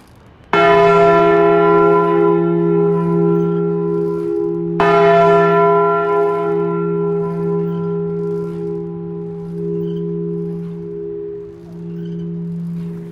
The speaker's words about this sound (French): Pourquoi ça vous fait pleurer, les cloches? Ça a toujours été.